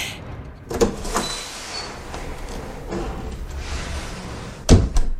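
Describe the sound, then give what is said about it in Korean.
A door closes with a heavy, dull thump near the end. A softer knock comes earlier, over faint shuffling background noise, with no voices. “라울이 뛰쳐나가는 순간 크리스틴이 문을 닫고”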